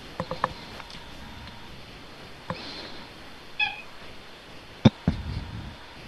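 A cat meows once, short and faint, among a few scattered soft clicks and knocks in a quiet space.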